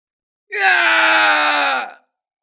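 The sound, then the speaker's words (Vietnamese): A man screams in pain as an arrow pierces his left shoulder: one loud, sustained cry of about a second and a half that holds a steady pitch before fading out, with no other sound. “Kim Xích Tiêu hét thảm, mũi tên thần quay lại xuyên thủng vai của gã”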